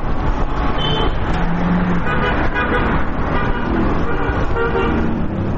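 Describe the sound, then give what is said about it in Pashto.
Dense, continuous traffic roar on a crowded city street beside the Kabul–Kandahar highway in Ghazni, with a few short car-horn toots rising above the steady rumble of engines. “دلته د خلکو او موټرانو ګڼه ګوڼه ده.”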